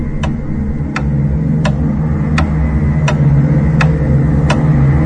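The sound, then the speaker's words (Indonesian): A clock ticks with seven crisp, evenly spaced ticks roughly two-thirds of a second apart, each short and sharp over a low, steady background hum. “Perlahan ku dengar detik jam yang mulai melambat. Mulai melambat.”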